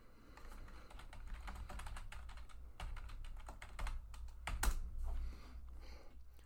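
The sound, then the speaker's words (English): Rapid typing on a computer keyboard while a search is entered into Google, many quick clicking keystrokes in uneven bursts, heard alone without talk. “what I want you to do is type into Google yellow baby shark toy.”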